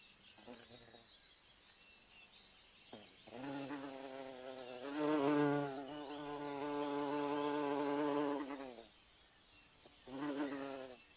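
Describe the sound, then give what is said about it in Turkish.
Honeybee buzzing in a few separate bursts, a rich, droning hum that swells loud, holds steady for several seconds and drops out between passes. “Bee. Bal arısı. Biene.”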